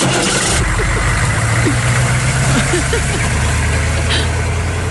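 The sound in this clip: A vehicle engine runs as the vehicle starts moving, giving a loud, steady low rumble with a continuous droning hum that barely changes throughout.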